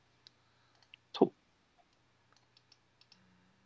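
Someone types a message into Skype on a computer keyboard, producing sparse, faint, separate clicks spread unevenly over a few seconds.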